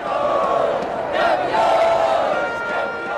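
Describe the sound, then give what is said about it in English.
Soccer fans at Lisbon airport cheer and chant as they welcome home Portugal's men's national team after it won the European Championship. A loud, dense crowd roar runs steadily through the whole clip, swelling slightly in the middle. “Soccer fans at the airport there in Lisbon welcoming home Portugal's men's national team.”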